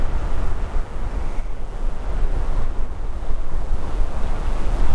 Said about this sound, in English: the wind is really, really bad